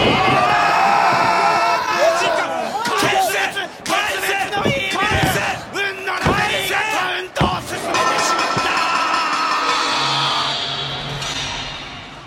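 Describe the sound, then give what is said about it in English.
A professional wrestling arena crowd stirs and roars as a wrestler heads for his finishing move, with loud, sustained yells and cheers that swell and dip throughout. “場内が何かどよめくような感じになっている。”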